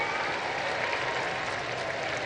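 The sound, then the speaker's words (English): A crowd applauds at Pope Leo's Sunday Angelus, a steady, fairly faint wash of many hands clapping that holds evenly throughout. “A big round of applause goes up, the Pope waves one last time”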